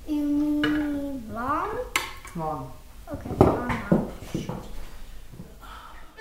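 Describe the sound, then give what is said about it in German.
A cooking pot of vegetables and potatoes is pushed onto a ceramic hob in a kitchen, giving brief clattering and scraping knocks of cookware under people talking. “schiebt den Kochtopf mit Gemüse und Kartoffeln aufs Zeran-Kochfeld und trocknet sich die Hände ab.”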